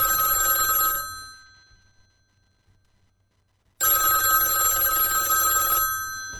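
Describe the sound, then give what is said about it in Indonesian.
A telephone bell ringing: two long bursts of bright, metallic trilling separated by a few seconds of silence, loud and with no talk. “tolong angkatin teleponnya”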